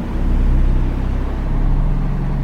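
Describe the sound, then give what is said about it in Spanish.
A garbage truck's engine gives a loud, low, rumbling roar, broad and steady throughout. “Progresivamente, el desagradable bramido del camión de la basura fue creciendo en intensidad y volumen como prueba de su inminente proximidad.”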